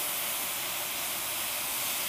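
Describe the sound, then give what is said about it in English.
Liquid poured onto browned tofu in a hot pan sizzles as a steady, dense hiss that holds at an even level throughout, with no talk. “So that's when I like to add my liquid, and my tofu is nice and browned on both sides, so we're gonna add a little bit of this gloriousness.”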